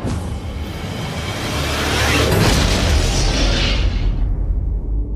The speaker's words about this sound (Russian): Взрыв расколол зубцы, разметал защитников.